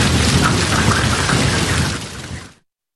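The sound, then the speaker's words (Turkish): Hail and rain pour down during a storm in a district of Ankara, making a loud, dense, continuous roar that fades quickly and cuts off just before the end. “Ve başkent Ankara'nın bazı ilçelerinde de dolu yağdı.”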